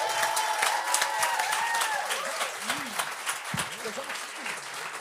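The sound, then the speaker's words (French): Audience applause with cheering welcomes a guest to the stage at a live French-language comedy show. Dense, steady clapping is joined by whoops and scattered shouting voices, and it continues at an even level throughout. “Mettez vos mains ensemble pour accueillir Maxime Piria!”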